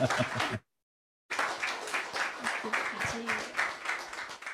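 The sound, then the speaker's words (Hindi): Audience applause after a song performance at a live music show: dense, crackling clapping from a crowd that cuts to a brief moment of silence early on, then resumes and continues steadily to the end. “ये तालियों की गड़गड़ाहट मैं मानती हूँ उन तक जरूर पहुंच रही होगी”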